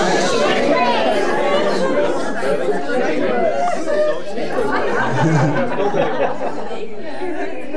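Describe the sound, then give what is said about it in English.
An audience at a talk turning to one another and all speaking at once, a dense, loud babble of many overlapping voices that holds steady throughout. “Turn the person next to you and say, you're shameless. Say it again, twice as loud.”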